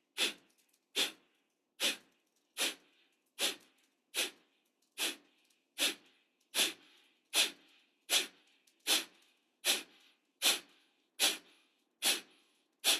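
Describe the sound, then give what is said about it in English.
Rapid breath pumps in a breathing exercise: many sharp, hissy, forceful breaths in a quick, even rhythm about a second apart. Each burst is short and breathy with near silence between, and there is no talk. “After this inhale, we're going to do 15 pumps. So inhale. And begin.”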